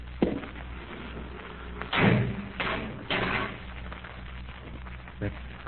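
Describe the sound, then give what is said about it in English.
Heavy door bolts and solid oak bars being worked on a door: a few dull, heavy thuds and clunks at uneven intervals over a low murmuring background. “Heavy bolts on the outside, sir. Solid oak bars overall. Let me see how quick you can operate them.”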